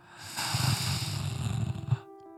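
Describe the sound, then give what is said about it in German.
A deep inhalation drawn in by one person, a breathy rushing hiss lasting about a second and a half that then cuts off. “Tief einatmen.”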